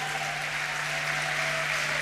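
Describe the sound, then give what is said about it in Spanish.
A crowd applauds loudly at a church gathering, a dense, continuous wash of clapping that holds steady throughout without voices. “Un fuerte aplauso al Señor por la vida de ellos”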